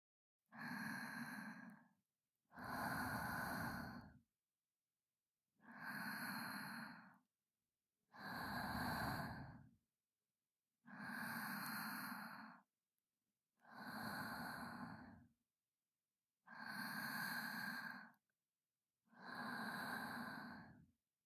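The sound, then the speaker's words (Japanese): A person breathes slowly and audibly, with eight even, breathy exhalations about two and a half seconds apart and silence between them, and no other sound. “罰として、罵倒いたしません。私の呼吸音でも聞いていなさい。”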